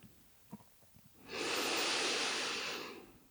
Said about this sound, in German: Atme tief ein und aus.